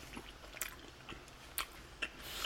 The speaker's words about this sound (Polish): Jak tak wziąłem większy kęs, to powiem wam, poczułem to mango